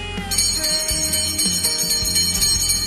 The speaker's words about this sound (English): it's a 2 minute bell